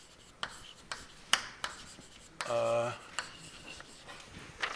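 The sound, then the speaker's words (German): Writing out a mathematical proof by hand during a lecture: a few sharp taps and strokes, with one short buzzy scrape in the middle, all fairly faint. “Also, schreiben wir das erstmal hin.”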